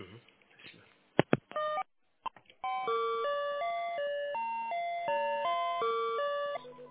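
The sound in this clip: Electronic telephone tones while a call is transferred: a few brief beeps and clicks, then a faint repeating melody of pure stepped tones that holds steadily to the end.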